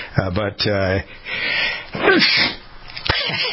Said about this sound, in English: I'm about to sneeze again, so give me a minute or two to sneeze